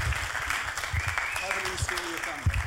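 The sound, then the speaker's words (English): Audience applause at a church service, welcoming a speaker to the front: a sustained patter of clapping with a voice heard over it. “Why don't you put your hands together and welcome him.”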